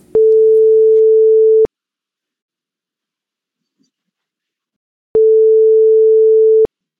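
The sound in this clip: Telephone ringback tone heard while placing a call: two long, steady, mid-pitched tone bursts, each about a second and a half, separated by a few seconds of silence, with no voices.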